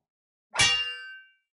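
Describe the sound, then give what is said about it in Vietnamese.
A single sharp metallic clang as a fist strikes a silver chain and shatters it, loud at onset, then ringing briefly with bright overtones before fading out, with no other sound around it. “Nắm tay của Diệp Phàm va chạm vào cái sợi xích bạc, chỉ nghe thấy một tiếng vỡ giòn tan.”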